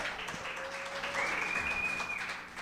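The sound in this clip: An audience applauds to welcome a guest speaker coming up to give a testimony, a steady, continuous wash of clapping lasting the whole stretch with no talk over it.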